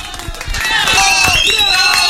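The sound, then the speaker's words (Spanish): Loud applause from a studio audience at a radio station in Arequipa. A few scattered claps build quickly into strong, continuous clapping with some crowd noise mixed in. “Bien, fuertes aplausos y ahora brevísima pausa.”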